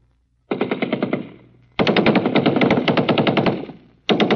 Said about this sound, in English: live bullets from machine guns whizzing over your head